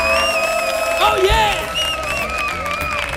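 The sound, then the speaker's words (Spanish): An audience at the Auditorio Cartuja cheers loudly with whoops, shouts and some clapping, and one voice calls out excitedly above the crowd. “con los mejores deseos del mundo para todos nuestros oyentes, para nuestro público, que suena así de fuerte su aplauso.”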